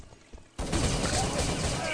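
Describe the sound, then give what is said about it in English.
Rapid G36 rifle fire in a video game erupts after a brief quiet opening. It becomes a dense, continuous, loud rattle of shots that keeps going to the end. “Going to cut down Batty Boy with the G36 again.”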